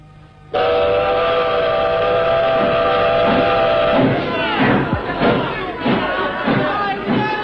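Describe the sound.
A steam train whistle sounds at departure in Korea, one long, loud, sustained blast, followed by a rhythmic chuffing of the train getting under way.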